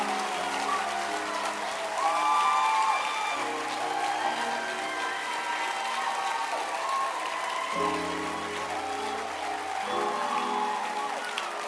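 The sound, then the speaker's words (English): Congregation clapping hands during a church service, a steady, dense wash of applause that swells slightly early and keeps going evenly for the whole stretch. “Can you stand to your feet and clap your hands and appreciate God?”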